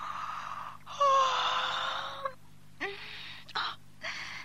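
A person yawning: a long, breathy, drawn-out exhale with a faint voiced tone lasting about a second, followed by a few shorter breathy vocal sounds.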